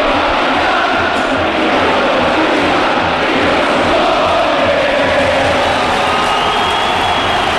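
A packed football stadium crowd roars on a big match day. A dense, loud, unbroken wash of crowd noise holds at an even level from start to finish.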